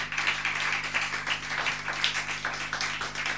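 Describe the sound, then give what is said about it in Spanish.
Audience applause at a poetry night, a dense, steady wash of many clapping hands that continues evenly through the whole clip, with a low constant hum underneath. “Otra vez, fortísimo el aplauso para Manuel, para Santi.”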